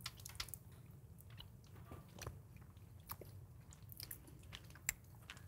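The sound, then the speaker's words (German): Biting and chewing on a zebra cake made with grated ube root: soft, moist crunches and squishy mouth sounds, faint and irregular, with a few sharper bites standing out and no talking. “Hier ist der Zebrakuchen mit Ube. Guten Appetit. Wir sind alle ganz gespannt, wie das schmeckt hier mit dem, mit dieser geriebenen Wurzel.”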